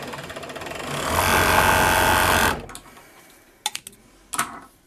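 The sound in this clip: An overlock sewing machine whirs steadily while stitching a garment collar. The motor hum grows louder partway through, runs for about two and a half seconds, then stops, and a few sharp clicks follow in the quiet.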